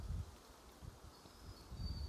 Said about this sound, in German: Es geht jetzt hier ein Rauschen durch die Wipfel der Tree Sisters. Es ist ein bisschen windig